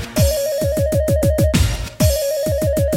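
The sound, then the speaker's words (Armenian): A telephone ringtone announces an incoming call with many rapid, evenly spaced tonal pulses at a steady mid-high pitch. They break off briefly, then resume at the same rhythm. “բայց ոնցոր զանգ է գալիս, գուց է դու ես սիրելիս”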